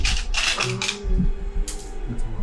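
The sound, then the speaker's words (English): Dice being picked up during a tabletop role-playing game, heard as several sharp, light plastic clicks and rattles in quick bursts, with short pauses between them. “I was just grabbing a dice.”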